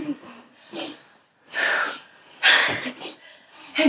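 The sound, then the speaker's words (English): A voice imitates someone out of breath from running, with heavy, ragged panting in a few loud, uneven gasps and breaths. “Then Mariah shows up. All right, cool. Very out of breath. Have been running. Act that out. Role play that for us.”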